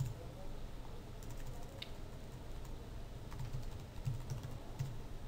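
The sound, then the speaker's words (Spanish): Typing on a computer keyboard, entering text into vector image software: faint, irregular key clicks patter steadily over a low background hum. “imaginaros que escribo aquí, por ejemplo, Universidad Miguel Hernández.”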